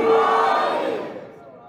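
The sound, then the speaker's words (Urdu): A crowd shouts the Haideri slogan in unison during a religious sermon honouring Ali, Fatima, Hasan and Husayn. The voices are loud and sustained, then fade over the last half second. “نعرہ حیدری، حیدری، حیدری۔”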